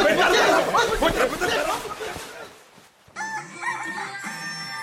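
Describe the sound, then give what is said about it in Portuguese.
A rooster crows at dawn, its harmonic, wavering call rising out of the second half after a stretch of overlapping voices. “galo canta de madrugada no dia seguinte.”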